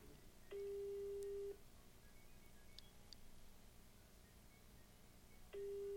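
Ringback tone of an outgoing telephone call: two faint, steady electronic tones, each lasting about a second, separated by a long pause, over a low background hum.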